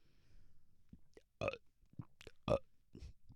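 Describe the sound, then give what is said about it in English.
Burps made on command: a few deliberate, croaky belches of varying length, with two louder and fuller than the rest, separated by small gulping sounds. “I can burp on command.”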